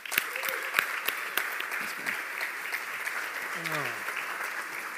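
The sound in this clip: A church audience applauds to welcome a guest speaker, a dense, even clatter of clapping with a few sharper claps near the start and a voice heard briefly partway through.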